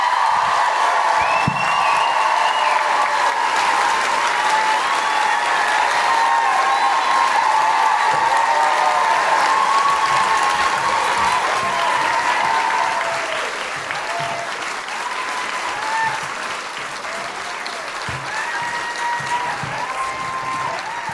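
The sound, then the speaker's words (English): Audience applause and cheering welcoming a guest at a live feminist comedy show in Auckland, a long, thick roar of clapping with whoops and high whistles on top, easing slightly in loudness partway through but never stopping. “Put your hands together and make incredible guilty feminists welcoming, woohooing Auckland noises for Ali Moore!”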